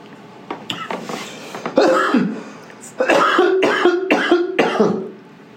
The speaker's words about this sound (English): Smoker's cough.